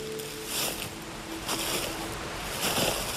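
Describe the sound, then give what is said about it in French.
Water trickles and runs off somewhere below in a forest, a faint, steady washing hiss that swells gently a few times, with no voices. “au clapotis, plutôt au ruissellement de l'eau en contrebas.”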